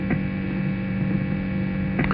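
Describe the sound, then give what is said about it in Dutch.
A record player runs in its last groove aboard the ship of the offshore station Radio North Sea International, giving a steady low hum with a faint tick near the start and another near the end. “De platenspeler loopt in de laatste groef.”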